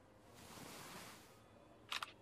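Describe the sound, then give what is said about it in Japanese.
A camera shutter fires to snap a photo of a shy boyfriend, a quick, crisp double click near the end that follows a stretch of soft, faint hiss. “はい、撮影しました。いつでも写真を撮ってもいいという恋人特権を行使させていただきました。”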